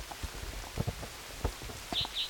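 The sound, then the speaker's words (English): Rain falls at Kinney Creek as soft, scattered drops patter irregularly at a low level, with two short, high chirps near the end. “Raining.”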